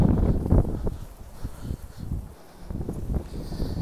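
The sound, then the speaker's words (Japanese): Strong wind blowing outdoors during a night walk, a steady low roar and buffeting rumble with gusty swells and brief dips throughout. “まああの風が吹いてますけども”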